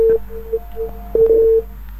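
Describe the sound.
After a radio caller's call drops, the phone line gives a steady mid-pitched tone in short beeps followed by one longer held tone, clean and alone.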